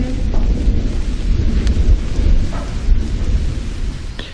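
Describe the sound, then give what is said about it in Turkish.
Steady rain pours down in a dense, loud, unbroken hiss, with a deep rumble of thunder underneath and no voices. “Yağmur yağıyor.”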